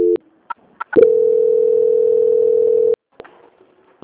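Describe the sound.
Telephone line tone while a call is transferred: a few short clicks, then a steady single-pitched tone lasting about two seconds, then more faint clicks, with no talk.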